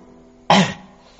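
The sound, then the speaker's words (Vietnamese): A single light cough, brief and alone, a short burst of breath that quickly trails off. “Sầm Vân sợ cô nghi ngờ, bèn ho khẽ.”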